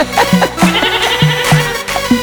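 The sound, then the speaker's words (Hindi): A goat bleats over and over, short nasal, wavering calls in a loose rhythm, loud and close, with brief gaps between each cry. “आजकल की बकरियां बे बे करती।”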